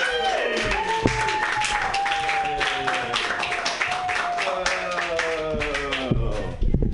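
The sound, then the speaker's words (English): Audience applause at a comedy open mic, dense continuous clapping that holds steady for several seconds while a voice carries over it. “Put your hands together right now for Marty Cunney.”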